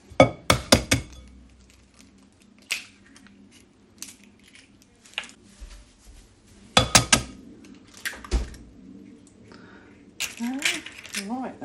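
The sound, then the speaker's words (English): Two eggs are cracked and added to a mixing bowl while a pudding is made: a few bursts of sharp clinks and taps against the bowl, separated by quieter stretches, with a voice talking at moments. “And the next thing to add is the eggs. How many eggs? 2 eggs, wasn't it?”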